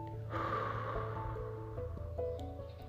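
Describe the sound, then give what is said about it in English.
A long, slow breath drawn in and let all the way out: a soft, airy rush that swells and then eases over a few seconds, with steady low tones humming underneath. “Take a long breath in. And let the air all the way out.”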